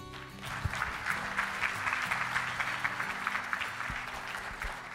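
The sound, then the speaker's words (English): Applause at the Global Lean Leadership Summit 2019 in Riverside, California: an audience claps warmly and steadily in a dense, even patter without voices. “Okay, everybody, give Peter a hand.”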